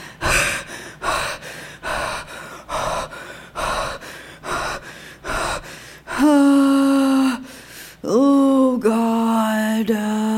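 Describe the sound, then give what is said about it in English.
A voice imitates a human anxiety attack with a rapid series of sharp, panicked gasping inhales. Two long, strained, tonal whimpering cries follow. “when you get overwhelmed and start to have an anxiety attack, it sounds something like this.”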